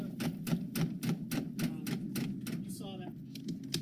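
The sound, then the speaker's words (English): Vinyl siding being ripped off a house by hand, with no hammer or pry bar, gives a fast, steady run of many sharp plastic snaps and cracks, fairly faint, with a brief voice near the end. “here, I'm ripping off vinyl siding by hand. I don't need a hammer or a pry bar.”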